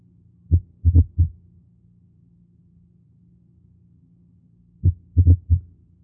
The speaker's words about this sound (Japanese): 1音と2音が、突然切れたように聞こえ、しばらくしてまた1音と2音が聞こえてきます。